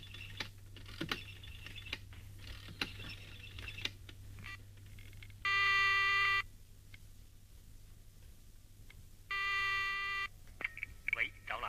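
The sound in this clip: Telephone dialing tones sound as two long, steady electronic beeps a few seconds apart, each lasting about a second. Scattered soft clicks come before them.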